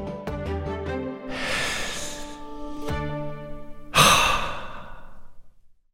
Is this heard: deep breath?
yes

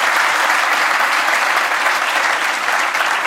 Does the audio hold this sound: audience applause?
yes

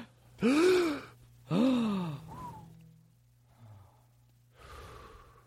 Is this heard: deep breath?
yes

